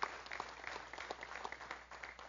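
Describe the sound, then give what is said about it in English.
Applause from a Baptist church audience at Great Swamp Baptist Church: a faint, steady patter of many hands clapping together that fades slightly toward the end. “Would you give the Lord a big round of applause?”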